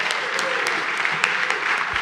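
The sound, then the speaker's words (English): Applause from a church audience celebrating two baptisms: dense, steady clapping fills the whole two seconds at an even level, with a few sharper claps standing out. “Let's have a final big round of applause for Gary and for Finley.”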